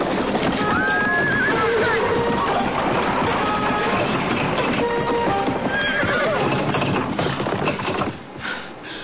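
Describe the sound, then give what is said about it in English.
A horse-drawn carriage rolls past with a loud, steady clip-clop of hooves and a horse whinnying, the sound holding level throughout before dropping away near the end. “Carriage.”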